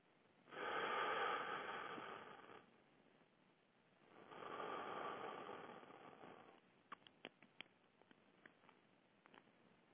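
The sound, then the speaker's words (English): Two long, loud deep breaths drawn in during a spiritual breathing exercise. Each inhalation lasts about two seconds, separated by a quieter pause and followed by a few faint clicks. “I breathe in the breath of God. That's it. I breathe in the breath of God.”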